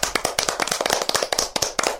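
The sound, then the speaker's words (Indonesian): Hands clap together in applause by a group of children, a dense, fast, steady patter of sharp claps lasting about two seconds without pause, fairly loud with no talking over it. “Tepuk tangan untuk kita semua.”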